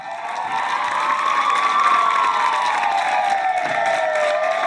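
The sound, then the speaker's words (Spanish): Applause from people at their windows in a Spanish city at 8 pm, thanking health workers during the coronavirus lockdown. Steady, dense clapping runs throughout beneath a sustained, wavering tone. “muchas personas han salido a sus ventanas para agradecer con aplausos el trabajo de los profesionales en la sanidad”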